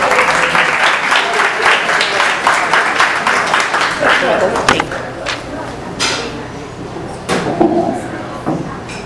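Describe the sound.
An audience at a Fairfax evening talk on conflict resolution gives loud, warm applause to welcome the speaker. The dense clapping thins into scattered claps after a few seconds.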